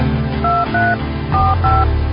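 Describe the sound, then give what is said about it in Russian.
Keypad tones as a mobile phone number is dialed: four steady, evenly pitched beeps in two quick pairs, over a constant low hum. “набрала номер сотового Лялина.”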